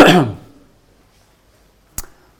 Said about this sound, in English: That's what happens if you try to pronounce too much Greek. You end up with catching your throat.